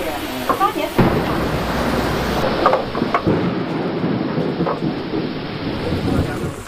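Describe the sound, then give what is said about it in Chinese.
Thunder and heavy rain break over an archaeological excavation where a woven mat and cover board are being lifted. A loud, steady wash of downpour runs throughout, marked by a few sharp cracks and low rumbles. “席子的发掘工作被雷声打断，大雨随之而来。”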